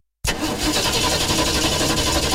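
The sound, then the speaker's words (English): A car engine starts abruptly after a brief silence and settles straight into a steady, even running sound for about two seconds. “With the cooler weather setting in, it's possible that you might find your vehicle is a bit hard to start.”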